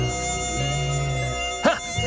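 A fly buzzes steadily in a thin, whining drone with layered harmonic tones, holding an even level for most of two seconds before a brief break near the end.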